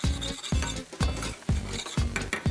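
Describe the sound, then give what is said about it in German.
Meatballs and porcini mushrooms frying in a pan, a soft sizzle beneath a steady rhythm of scraping, clinking strokes as a utensil stirs them. “Jetzt mal die Frikadellen raus hier. Ja. Und tu die mit einfach zu den Pilzen, dass die dann noch so leicht gebraten werden, ne?”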